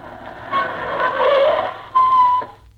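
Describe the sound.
A taxi cab pulls up at Union Station with a car engine droning under a tonal whine, growing louder, then a steady tone near the end before it cuts off.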